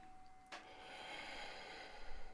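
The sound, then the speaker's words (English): A deep breath is drawn in during a relaxation breathing exercise: a short, sharp intake of air is followed by a faint, steady airy rush of inhalation. “Breathe in.”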